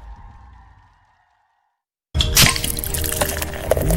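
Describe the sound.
Brewed Legend X Stout beer is being poured. A faint low hum fades into silence, then a loud, frothy gush of liquid bursts in about halfway and splashes and fizzes steadily to the end. No voices.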